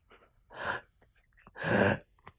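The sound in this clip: Two deep, audible inhalations taken just before someone starts speaking: a quicker breath, then a longer, louder one, both breathy and airy, with small faint clicks between them.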